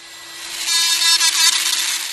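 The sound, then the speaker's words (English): A power drill bores tiny holes into a 2-inch piece of walrus tooth ivory, giving a continuous high, hissing grind with a steady whine that swells after the start and holds loud throughout. “Dust flies through the air as he drills tiny holes into the 2-inch piece of ivory that he'll later fill in with baleen.”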